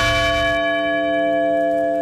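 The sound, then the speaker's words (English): A heavy bell tolls once at a memorial ceremony at the crash site of United Flight 93 near Shanksville, Pennsylvania. A loud metallic strike gives way to a rich, sustained ringing hum that holds steady without fading. “A bell tolls near Shanksville, Pennsylvania, at the crash site of United Flight 93.”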